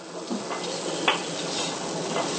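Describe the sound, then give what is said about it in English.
Bean curd stir-frying in a pan gives a faint, steady sizzle, with a few light utensil scrapes and one brief clink. “What are you making? I told you I'm stir-frying bean curd.”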